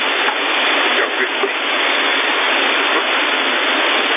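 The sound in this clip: Running water from a shower pours as a steady, even hiss with no breaks, filling the whole clip at a constant level.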